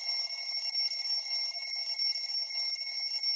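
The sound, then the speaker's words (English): An alarm rings on and on, a steady high-pitched electronic tone that holds unbroken at an even level throughout, with no voices. “wow, that was a long alarm.”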